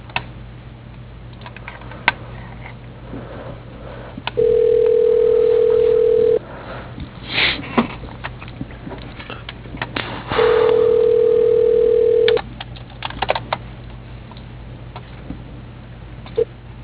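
Two long telephone ringing tones, each about two seconds, sound over a phone line while a call is transferred, separated by a pause filled with faint clicks and line hiss.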